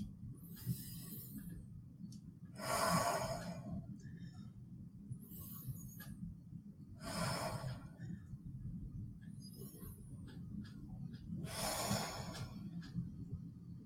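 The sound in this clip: Three deep breaths taken slowly during a breathing exercise, each a softer intake followed by a louder, drawn-out rushing exhale, evenly spaced over a low steady hum with no talking.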